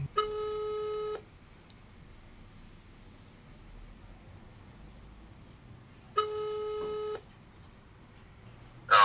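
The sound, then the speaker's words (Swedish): Telephone ringing tone on an outgoing call, two long steady beeping tones of about a second each separated by a pause of roughly five seconds, clear over a low background hiss. “Jimmy Hamrin, så jag vet inte, ska vi slå en signal till honom och höra vad han tycker om det här?”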